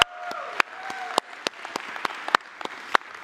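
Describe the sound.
Church audience applauding in praise, with distinct claps that ring out at irregular intervals over about three seconds on a steady bed of softer clapping.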